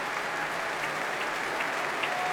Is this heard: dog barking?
no